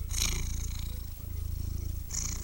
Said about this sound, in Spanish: siempre estaba dispuesto a saludar a los visitantes con un ronroneo amistoso.